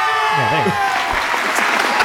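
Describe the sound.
Canned studio-audience applause played as a sound effect, a steady wash of clapping throughout with a voice exclaiming over it.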